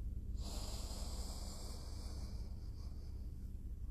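A deep breath drawn in during guided meditation: a long, steady, airy inhale lasting several seconds, soft and breathy with a faint hiss, heard alone.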